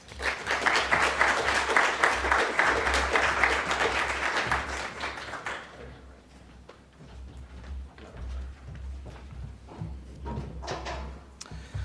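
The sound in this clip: Audience applauding a speaker welcomed to the podium at a policy discussion event, full clapping for about five seconds that then thins out to a few scattered claps and faint rustling.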